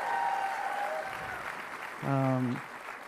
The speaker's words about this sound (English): Can we make some noise for the folks that are out in the lobby still?